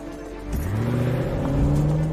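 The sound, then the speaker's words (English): An SUV speeds off, its engine accelerating with a steady rising whine and a broad, loud motor roar that holds throughout. “Outside the school, Linda pulls up in her SUV. She looks out the window, spots Megan and Bridget on the playground, then speeds off.”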